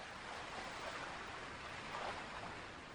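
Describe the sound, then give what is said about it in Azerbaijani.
Roaring waves of the Araz river make a continuous, dense rushing wash. It is steady and even, with slight swells in strength. No voices are heard. “Arazın gür dalğası.”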